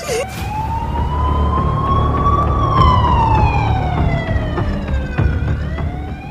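A fire engine siren at a house fire wails in a long, slow sweep. Its pitch rises for a couple of seconds, then glides down, loud and steady over a low rumble, and begins to rise again near the end.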